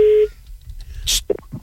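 A telephone call starts with a short, steady electronic tone that cuts off abruptly. Quieter line noise follows, broken by a few brief blips as the call goes unanswered toward voicemail.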